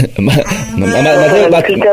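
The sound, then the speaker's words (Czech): A sheep bleating: a loud, strongly quavering cry that wavers in pitch and runs continuously for about two seconds. “asi jste poznala, to byla Matilda, moje ovečka tady”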